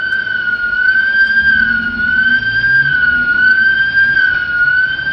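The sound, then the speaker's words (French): Loud shop alarm sirens in Paris in 1989 hold a steady, high tone with a slight waver throughout, over a low rumble. “À Paris, ce sont les sirènes de boutiques juives qui célèbrent à leur manière l'arrivée de Yasser Arafat.”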